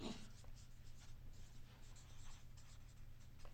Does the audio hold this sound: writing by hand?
yes